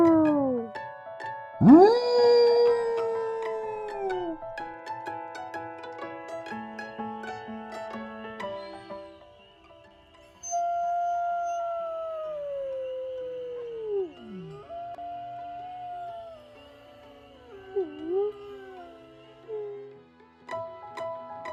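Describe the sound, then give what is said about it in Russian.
A wolf howls in long, drawn-out tonal notes, several in a row, some sliding downward in pitch and wavering as they trail off. “Волк говорит у.”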